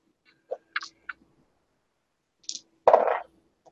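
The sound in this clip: Painted dice roll during a tabletop role-playing game, heard as a few faint, scattered clicks followed by a brief, louder rattling clatter, with no talk over them.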